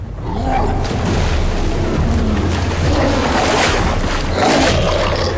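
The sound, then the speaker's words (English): Water sloshing and churning as a werewolf-like creature wades across a river, a loud, steady rush of splashing without clearly separate steps. “the wolfman is wading across the nearby river”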